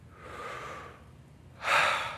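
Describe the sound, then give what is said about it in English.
A deep breath taken during a church sermon, heard as two soft airy rushes with no talk. The first is long and gentle; the second is shorter, louder and brighter. “Well, the first thing that I want us to do is take a deep breath”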